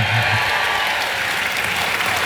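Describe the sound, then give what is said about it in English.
Loud, dense applause rises from an audience rallying behind a team's hopes of winning. The clapping is continuous and even, with crowd noise blended in for the whole stretch. “A cheer. Come on.”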